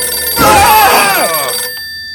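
A telephone rings in a single loud, warbling electronic trill, with a steady high tone continuing faintly before and after it.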